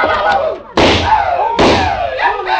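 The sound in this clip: Gunshots from an old trapper's gun: two sudden, loud cracks about a second apart, each with a bright, ringing decay.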